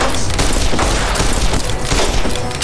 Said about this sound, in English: We're gonna try this gun again.